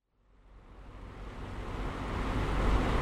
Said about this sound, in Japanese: それではバックのままアクセル踏みます。